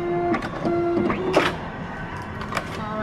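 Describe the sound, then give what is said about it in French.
A printer printing a bank withdrawal card gives a short mechanical whir with tonal motor whines and a few clicks, and no one talks. “Et maintenant, on va imprimer ta carte de retrait.”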